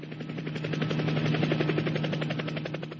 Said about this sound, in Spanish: tengo un ringtone buenísimo de un helicóptero.